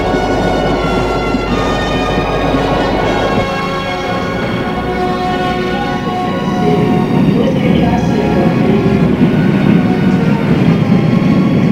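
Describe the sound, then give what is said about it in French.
Train leaving the Gare de Lyon station in Paris: a loud, continuous heavy rumble with steady whining tones layered over it, sustained for the whole stretch and swelling slightly toward the end. “Lorsque le train quitte la gare, Mélusine est soulagée.”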